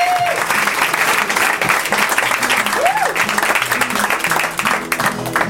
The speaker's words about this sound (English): Clap the way you would for your favorite act this far, so far tonight.